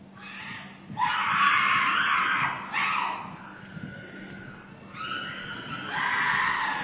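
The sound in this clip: Several people shout and scream at a religious gathering where worshippers are being anointed. Loud, sustained, overlapping cries come in waves, with a brief dip before the voices swell again.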